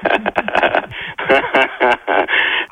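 A Rire et Chansons radio station jingle plays as dense, bright vocal phrases in several bursts separated by short gaps, loud and heavily compressed.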